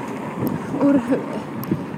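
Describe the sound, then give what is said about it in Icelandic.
Wind blows outdoors in grey weather in central Reykjavík, a steady rushing buffet of noise with small gusts and a brief faint whistle in the middle. “úr miðbæ Reykjavíkur vindi og gráviðri”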